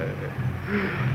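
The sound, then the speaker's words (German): Droning engine of a Junkers 13 aircraft, a steady mid-pitched hum with layered tonal bands that holds fairly even in loudness throughout. “Genosse Kapitän, Genosse Kapitän, ich höre das Flugzeug des Genossen Babuschkin. Das Flugzeug des Genossen Babuschkin.”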